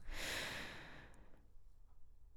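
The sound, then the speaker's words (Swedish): A single airy inhalation from a breathing exercise, meant to be effortless and automatic. It is loud and breathy for about a second, then fades into faint low noise, with no talk. “Och det här ska vara en helt ansträngningslös inandning. Den kräver inte så himla mycket kraft, utan det ska komma helt automatiskt.”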